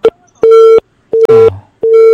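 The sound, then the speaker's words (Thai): Busy tone on a telephone line after a caller's call has dropped: loud, steady mid-pitched beeps pulsing in a regular on-off rhythm, with one brief extra sweeping sound between two of the pulses. “สายหลุดซะแล้วโทรใหม่นะจ๊ะสายหลุดซะแล้วจ้า”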